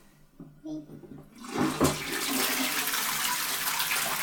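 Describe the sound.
A toilet flushes: after a quiet start, a loud rushing surge of water bursts in and continues as a steady, noisy gush to the end.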